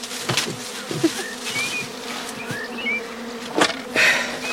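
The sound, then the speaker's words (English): Bees in a hive set down on the ground buzz in a dense, continuous drone with a few louder swells. No voices are heard. “Let me set the hive upon the ground. Holding it makes one's arm ache worse than a week of sword exercise.”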